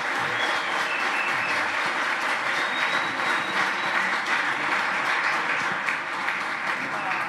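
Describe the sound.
An audience applauds a guest speaker with warm welcoming applause: dense, steady clapping that stays loud and even from start to finish.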